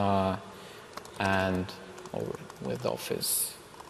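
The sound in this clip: A computer keyboard clicks in short bursts as someone types into Power BI, the rapid keystrokes alternating with stretches of talk.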